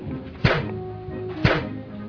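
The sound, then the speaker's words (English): Rifle shots fired from the prone position at a bullseye target: two short, sharp thuds about a second apart, each with a quick punchy attack that fades fast. “Pull the rifle like this. Look through the sights at the bullseye of the target. Gently squeeze the trigger. And there you go.”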